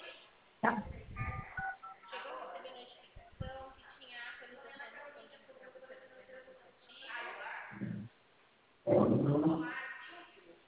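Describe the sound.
Touch-tone keypad beeps from a telephone call on speakerphone, thin and narrowband, mixed in with people talking over the line.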